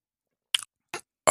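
Gulping sounds of someone taking a big drink of full-bodied wine: three short, wet swallows separated by silence, the last one louder and longer.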